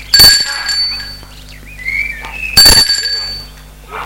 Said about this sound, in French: Elle sonne. Peut-être qu'il y a quelqu'un.